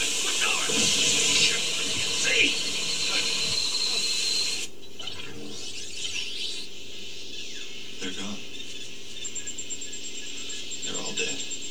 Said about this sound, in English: the sprinklers, which is going to wash away all that radioactive dust.